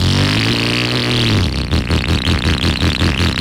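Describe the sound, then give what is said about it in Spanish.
Motorcycle engine revving loudly, first a smooth droning hum, then a rough, choppy, pulsing rattle that continues to the end. “Olímpica Estéreo y Suzuki te regalan una moto.”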